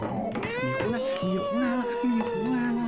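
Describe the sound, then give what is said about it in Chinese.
An infant cries loudly and continuously, with wavering, high-pitched wails and sobbing breaks that rise and fall throughout. “怎么哭了？ 刚才还好好的呢，突然就哭起来了。”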